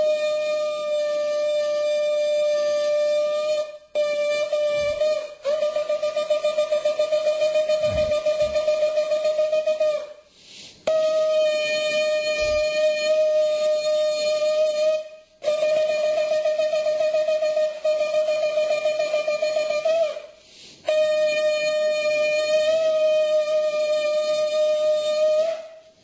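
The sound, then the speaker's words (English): A shofar, a ram's horn, blown in temple after the Torah reading, sounds a loud, buzzy, brassy tone at a steady pitch in several long sustained blasts, with brief breaks between them and a slight waver at some onsets. “This is the sound of the shofar,”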